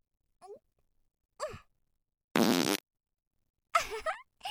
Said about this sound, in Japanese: どう？やっと呼吸ができると思ったところにおならされるのは。 私のおなら思いっきり吸い込んじゃったね。